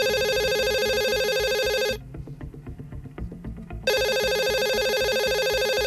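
An evening telephone call rings in two long, loud, bright electronic bursts separated by a short pause, with no voices.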